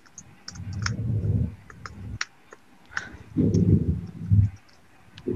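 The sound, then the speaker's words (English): Someone types an email on a computer keyboard, producing sparse, irregular key clicks in short runs, fairly quiet, with no voices. “I'm going to just type my email.”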